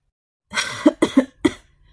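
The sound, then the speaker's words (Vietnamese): Dry, harsh coughing from an old man, an ailing elderly emperor, in three short rasping bursts that follow a breathy onset, then silence. “Lão hoàng đế lại ho khan nói với thái tử.”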